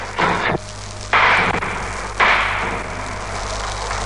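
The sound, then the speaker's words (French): Machine-gun bullets strike a wall during a tank attack, three sharp, loud bursts of impact noise spaced about a second apart over a steady low hum. “Il tire à la mitrailleuse, vous entendez les balles qui claquent contre le mur.”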